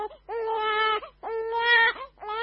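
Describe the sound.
A small girl who is sick with diarrhea cries in three long, wailing sobs separated by brief pauses, the last one cut short, steady and fairly loud with no other voices.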